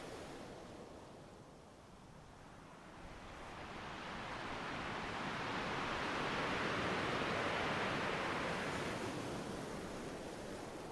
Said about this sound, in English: Little breakers crackled in the distance, but each one reached high up the beach.